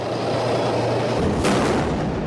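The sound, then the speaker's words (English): Gunfire during an attack on a military convoy in Aleppo with a burning tank: a dense, rumbling roar of noise, broken about midway by one sharp, bright blast that cuts through the din. “This dramatic footage from Aleppo shows an attack on a convoy with a soldier leaping out of a burning tank.”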